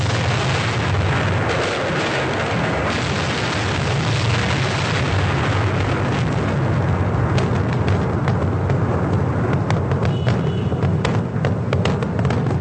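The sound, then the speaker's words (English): Pockets of gas explode in a dense, continuous barrage of crackling pops and rumbling booms that stays loud for the whole stretch. “And the various pockets of gas explode.”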